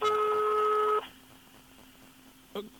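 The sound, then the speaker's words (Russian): Telephone tones while a number is dialled. A steady two-pitch tone holds for about a second and stops, followed by quiet and then one short, clipped beep. “надо Михе срочно позвонить”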